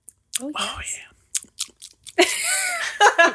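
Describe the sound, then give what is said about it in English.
People tasting a Manhattan cocktail with cherries and an orange garnish make close chewing and biting sounds, mixed with soft murmurs and voices. “Guys, we need the ASMR of you guys tasting it.”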